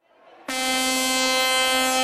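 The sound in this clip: An air horn (corneta) sound effect blasts in after a brief, quieter start. It holds a loud, steady, harmonic-rich tone to the end.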